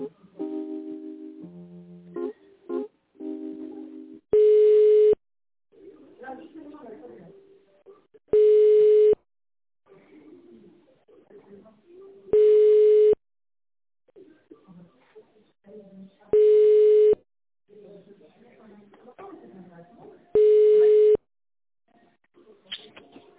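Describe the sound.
Telephone line tones sound as a call is transferred: five steady, identical beeps repeat at regular intervals, with voices and other faint sounds in between and a short run of melodic tones at the start.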